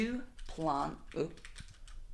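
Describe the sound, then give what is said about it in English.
Someone types on a Dvorak computer keyboard, with quick, light key clicks running underneath a person talking. “Oh, it's his Dvorak keyboard. You're not going to be able to type on that. Oh, no, that's also not the backspace button. Hold the microphone. What do you want me to type?”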